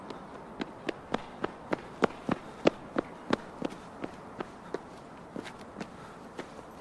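Quick running footsteps of a person along a rain-soaked street, many sharp, evenly spaced steps in a steady rhythm, fairly faint, with no voices.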